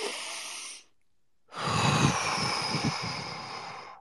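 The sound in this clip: Slow, controlled breathing through the nose: a short breathy sound, a pause of silence, then a longer, steady airy exhale that carries on to the end, soft and unvoiced, with no talking.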